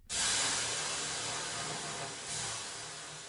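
Water thrown onto hot sauna stones bursts into a loud, broad hiss of steam that holds steady, dips briefly, then surges again before slowly fading.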